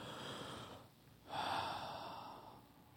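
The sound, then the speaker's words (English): A deep breath drawn in, heard as a soft, airy rush of air. Two breathy swells are separated by a brief pause, the second louder and longer, with no talking. “I want you to take a deep breath in with me on the count of three. One, two, three.”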